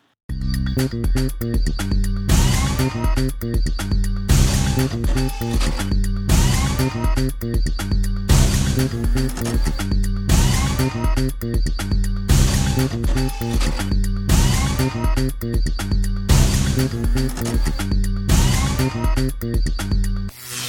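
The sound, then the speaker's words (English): A brand-new product jingle plays as loud, upbeat music with a steady driving beat and a repeating phrase that cycles roughly every few seconds, with no voices. “Okay, what you just heard is our brand new product jingle,”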